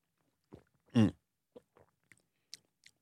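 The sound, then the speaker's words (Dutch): Opening and drinking from an Air-Up drinking bottle with a spout: a few soft clicks and small taps around one louder, fuller gulping burst, each brief and separated by quiet. “Ik draai hem even open. Dan lijkt het nog steeds op een hele gewone drinkfles met een tuutje. Ik ga je gewoon drinken nu.”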